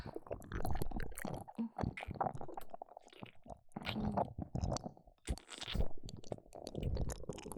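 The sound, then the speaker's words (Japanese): Gentle biting made close up with the mouth: many irregular wet smacks, soft crunches and squishy nibbling noises, fairly loud and dense, with no talking. “もう少し刺激を与えるために少し噛んでみます。”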